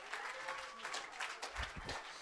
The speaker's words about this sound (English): One more time, clap your hands and love the Lord.